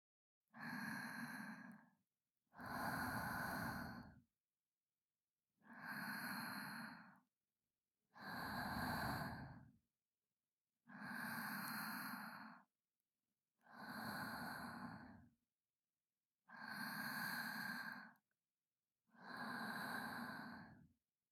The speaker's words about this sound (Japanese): 私の呼吸音でも聞いていなさい。